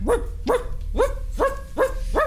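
A dog barks in a yard, six sharp, evenly spaced barks at a steady rhythm, each with a bright, rising onset, heard alone without voices.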